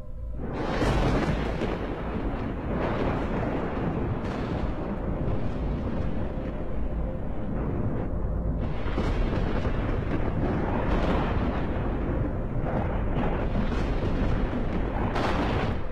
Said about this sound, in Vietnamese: kèm theo đó là tiếng sấm đinh tai nhức óc vang lên